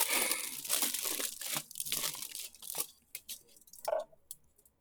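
Aluminium foil crinkles and crackles in a dense, busy burst of sharp rustling for about three seconds, then thins into a few separate crinkles and crackles that fade out quietly.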